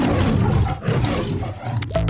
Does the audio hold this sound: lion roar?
yes